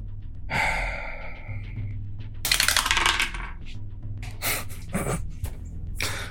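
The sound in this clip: Dice rattling and rolling across a table during a tabletop game, heard as a few bright, clattering bursts with quieter stretches between them.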